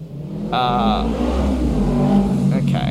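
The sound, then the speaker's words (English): A motorbike engine revs outside, a loud, continuous roar that swells early and holds a fluctuating, throaty pitch across the whole clip. “we get it. Someone has a motorbike.”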